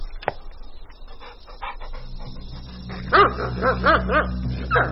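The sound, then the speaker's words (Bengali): A dog panting, then giving a few short, tonal barks or yips as it arrives in a courtyard, with a steady low hum underneath from about midway; no talk. “হঠাৎই কোথা থেকে একটা কুকুরের আগমন ঘটল।”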